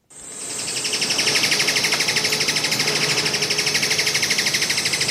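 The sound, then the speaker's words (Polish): Alagoas foliage gleaner song, a rapid, high-pitched pulsing trill that holds steady and loud throughout, with no voices. “Posłuchajmy Alagoas foliage gleaner, czyli liściowca leśnego.”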